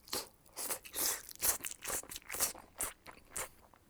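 Crunchy chewing and biting while eating a hamburg steak in hayashi sauce, a steady run of many short, fairly loud bites and chews with no talking.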